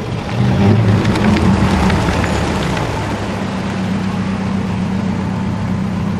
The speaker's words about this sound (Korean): 흐린 달빛의 모습을 드러낸 차는 검은색 소형 버스다.